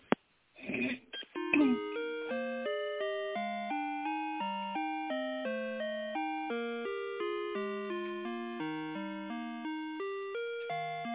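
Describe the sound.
Hold tones play while a telephone call is transferred to an accounting department: after a click and a short burst of noise, an electronic melody of evenly spaced, stepping beeps repeats steadily with thin, phone-line quality.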